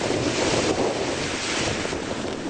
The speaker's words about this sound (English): that's the sound of wind and water in Pensacola, Florida